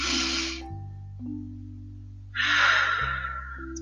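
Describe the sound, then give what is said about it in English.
A deep breath is heard as two airy, breathy rushes, one at the start and a louder one later, with soft sustained low musical tones underneath. “Take a deep breath.”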